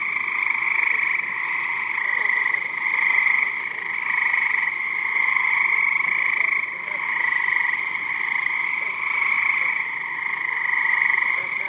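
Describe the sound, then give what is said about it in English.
Cricket frogs from New Jersey call in a dense, unbroken chorus of rapid clicking croaks. The sound is bright and steady and holds at the same level throughout, with only small dips in loudness. “That was the sound of... frogs. The frogs are from New Jersey, and they are cricket frogs.”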